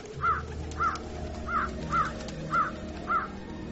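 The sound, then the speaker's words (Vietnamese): Six harsh, crow-like caws ring out at an even pace from birds flying in and perching, each caw short and loud, with no voices. “Nơi đây vô cùng kinh khiếp, có loại chim mỏ sắt không biết từ đâu bay đến, đậu trên vai chúng tôi.”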